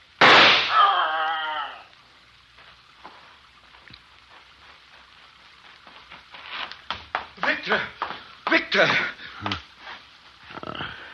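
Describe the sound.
A gunshot fired at an animal bursts out loud at the start and rings for about a second and a half before fading. Quieter sounds follow, then people talk in short bursts.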